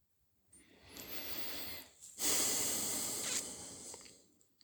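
A slow, deep breath taken during a calm relaxation exercise: two long, airy, hissing breath sounds separated by a short pause, the second louder and harsher than the first.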